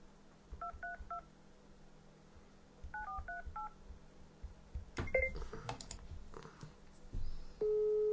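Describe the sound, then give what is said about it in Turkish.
Telephone keypad dialing tones sound while someone calls numbers one after another: two quick runs of short beeps, then a few scattered tones and a steady tone at the end, fairly quiet and with no talk. “Arıyorum tek tek arıyorum önüme gelenleri.”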